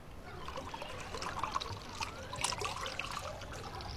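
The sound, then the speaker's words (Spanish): Wine being poured at home makes a faint, steady liquid trickle lasting several seconds, with small splashy accents and no voices. “Ana sirve vino.”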